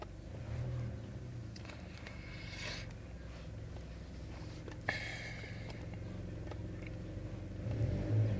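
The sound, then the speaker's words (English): A powered pallet truck engaging gives a steady low mechanical rumble and hum with one sharp clunk partway through. The level stays fairly even and swells slightly toward the end, with no talking. “Pallet truck engage.”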